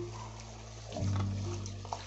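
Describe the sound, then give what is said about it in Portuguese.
Running water in a kitchen sink while pots are washed: a steady rushing spray that swells after about a second, over a low, constant hum. “Enfim, agora tem que lavar uns potes aqui.”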